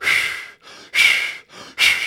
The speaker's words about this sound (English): See how those exhales are very, very sharp and loud?